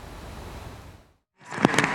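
Muddy floodwater from a river overflowing after heavy rain rushes through a small village with a broad, steady roar. It drops to a brief silence, then returns louder with a few sharp surges.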